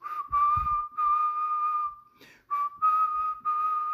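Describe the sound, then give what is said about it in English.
A person quietly whistles with the mouth to imitate a referee's whistle on a football sideline: a run of shrill, steady single-pitch blasts split by short gaps, one held much longer than the rest, with no talk. “Coach Rankin yelled, "Blow the whistle," I looked at our receiver coach, and just real quiet with my mouth, I went,”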